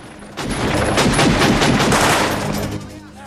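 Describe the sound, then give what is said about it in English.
Gunfire in a shootout as a man rolls on the ground, firing steadily to cover himself. Many rapid shots blur into one loud, sustained burst lasting about two and a half seconds, then the sound drops away. “Alex is sweating heavily as he rolls on the ground, firing steadily to cover himself.”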